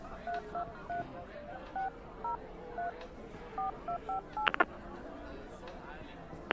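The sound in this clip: Telephone keypad tones sound as a number is dialed to a telecom company's customer service line: a quick string of short, quiet beeps in an uneven rhythm, followed by a couple of sharp clicks.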